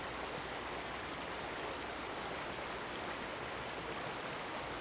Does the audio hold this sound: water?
yes